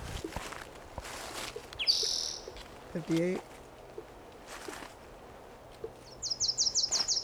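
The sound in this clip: Bird calls from a field recording: a high upslurred chirp, then a faint low trill, and finally a rapid run of short, high repeated notes, all quiet over a steady background hiss.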